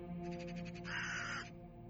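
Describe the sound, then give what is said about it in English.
A raven calling in a wooded area: a single faint, hoarse, drawn-out croaking caw over a steady low background hum. “More of a raven.”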